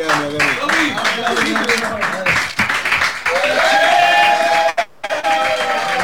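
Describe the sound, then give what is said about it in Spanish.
Audience applause in a radio studio, clapping mixed with voices and lively shouts, staying loud throughout with a brief dip near the end before resuming. “Nunca creí que iba a llegar a esto, ¿viste? A ponerme un anteojo y que me aplaudan.”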